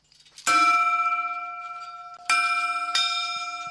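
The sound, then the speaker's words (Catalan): A hermitage bell struck with its clapper rings out three clear strikes, each leaving a bright, sustained metallic tone that slowly decays, with a longer pause after the first strike and the last two close together. “Doncs vinga, ho fem, toquem la campana, el batall o com ho diguem, sí?”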